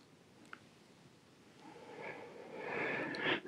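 A slow breath taken during an arm-rotation exercise in a therapeutic yoga session for stress-related back problems. It is an airy, breathy rush that starts faint and swells steadily over the second half, with no talk over it.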